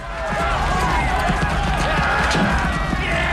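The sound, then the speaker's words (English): A large group of villagers runs through a settlement. Dense, pounding footsteps and shouting voices stay loud throughout. “A large group of the villagers burst out of one of the huts and run aggressively towards the king.”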